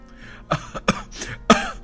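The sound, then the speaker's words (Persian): A harsh coughing fit: several rasping coughs in quick succession, mixed with throat-clearing sounds, with no talk. “اما سرفه او شدیدتر از این حرفا بود.”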